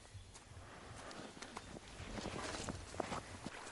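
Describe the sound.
Faint footsteps of a woman walking along a riverbank, with soft, irregular steps over a low background hiss.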